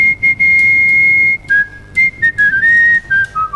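A man whistles a tune, the kind of tango and folk melody he performs. One long, loud held note gives way to a quick run of shorter notes that wander and drift lower, clear and without accompaniment.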